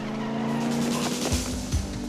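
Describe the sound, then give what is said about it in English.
A getaway car riddled with bullets speeds off with a loud, sustained engine roar and squealing tires, and a couple of low thuds near the end. “The getaway car also speeds away, having been peppered with bullets.”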